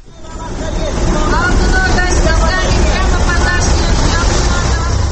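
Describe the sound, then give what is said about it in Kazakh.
Street traffic at a bus stop at the Tole Bi and Furmanov intersection where Chinese buses pull in: a loud, steady engine roar builds over the first second, with a murmur of voices underneath. “Қазір мен Төле би мен Фурманов көшесінің қиылысындағы аялдамада тұрмын. Бұл жерге басқа көліктермен қатар Қытай автобустары да тоқтайды екен.”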